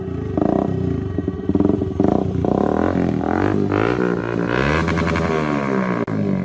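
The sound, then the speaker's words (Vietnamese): A motorcycle engine approaches with a loud, continuous roar, its revving pitch climbing and shifting throughout before a brief dip near the end. “tôi đã nghe thấy tiếng xe gắn máy của Trúc Tầm Ngân chuyển tới từ bên đó”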